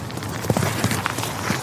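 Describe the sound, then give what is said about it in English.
A horse gallops past, its hoofbeats a few soft, irregular thuds over steady background noise. “Rosie! She's loping. Come on. Come on, Rosie. Yeah, she's galloping. Come on, let's have a fly past. Here she comes.”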